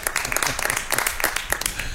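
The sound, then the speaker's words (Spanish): Applause from an audience at a town fair in Spain: dense, continuous clapping that stays fairly faint and even throughout. “Un aplauso, señor.”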